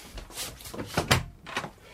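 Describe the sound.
A hotel room door is opened as a radio play sound effect, a few soft knocks and creaks that build to a fuller thud near the middle, then a fainter rattle.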